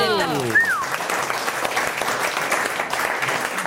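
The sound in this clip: Audience applause during a quiz about ice hockey, with dense, steady clapping that holds throughout and a brief whistle-like tone at the start.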